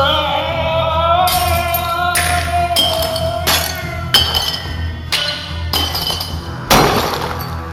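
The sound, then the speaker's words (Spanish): Glass panes break as framed pictures fall in a hallway: several loud, sharp crashes of shattering glass arrive in irregular succession, each leaving a brief tinkling tail, with ringing tones between them. “Oyeron cómo se rompían los cristales al caer los cuadros del pasillo.”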